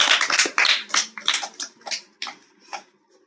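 A small audience claps for a boy who has just sung a Telugu devotional song. The claps are sharp and uneven, start dense, then thin out and fade within about three seconds.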